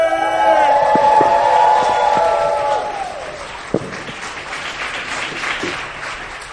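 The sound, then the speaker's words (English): Live show audience breaks into loud, sustained applause with some cheering right after a voice calls out a name, the dense clapping holding steady for several seconds and easing slightly toward the end. “You give it up for Danielle Radford!”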